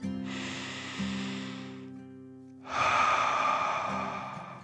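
A deep breath drawn in and then let out, two long, airy rushes of breath, the second louder, over a steady low tone.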